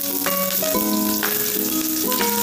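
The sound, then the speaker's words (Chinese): Chopped scallions and minced garlic sizzle in hot oil in a heated pan, a steady, loud frying hiss that runs through the whole clip with background music playing over it. “开火，锅热了以后加油，然后加入葱花还有蒜末爆香”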